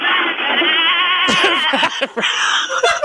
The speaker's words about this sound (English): Prepare the goat to be hurled. That goat will be hurled. We are going to hurl the goat.